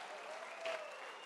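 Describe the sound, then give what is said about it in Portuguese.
A church audience clapping during a service: dense, steady applause from many hands, brief and even in loudness. “Fique em pé, por favor, dá um aplauso para Jesus.”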